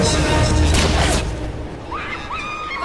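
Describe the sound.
A deep booming report from a sniper rifle shot in a film, loud and broad right from the start, then dying away over about a second into a lower, rougher rumble.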